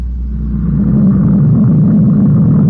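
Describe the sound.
A spaceship engine accelerates toward star-drive speed with a loud, steady, low, rough rumble that fills the whole stretch without letting up.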